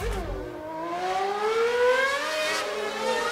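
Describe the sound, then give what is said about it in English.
Formula One race car engine noise, a loud, high whining tone with layered harmonics that climbs steadily in pitch over a few seconds, then dips slightly, with no talk. “Need to play some Formula One tunes and noise in the background because that's what gets me excited.”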